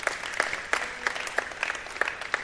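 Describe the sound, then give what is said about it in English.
An audience applauds the young people: a steady, fairly faint patter of many hands, with louder single claps standing out at a regular pace. “It's appropriate to clap. I think we could, sure.”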